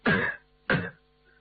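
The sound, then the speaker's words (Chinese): A man coughs at a doorway: two short, harsh throat-clearing bursts separated by a brief pause, with no talk. “副官在门口咳嗽一声”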